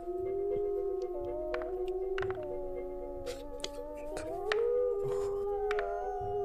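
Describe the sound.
Wolves howl together in long, overlapping, wavering tones, played during a tabletop fantasy role-playing game. The howling is steady and fairly loud throughout, with no talk.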